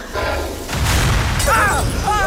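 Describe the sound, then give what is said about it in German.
A lantern shatters and sets old, rotten wood in a tree trunk ablaze, heard as a loud rumbling boom with bursts of rushing, roaring noise, while a voice cries out over it near the end. “Flammen! Flammen schlagen aus dem Stamm! Die Laterne muss am Grund zerbrochen sein und setzt alles in Brand.”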